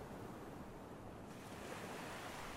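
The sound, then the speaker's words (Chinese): Ocean waves make a steady, quiet wash of surf with a dense hiss, without distinct breaks or pauses. “一睁开眼，就听到了像现在一样的海浪声”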